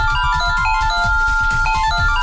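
A mobile phone ringtone plays alone for an incoming call: a steady, bright electronic melody of sustained tones over a pulsing, rhythmic bass beat.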